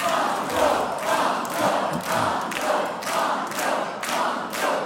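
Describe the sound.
A large, warm studio audience cheers on quiz contestants. The loud crowd noise pulses in a steady, regular beat of repeated surges.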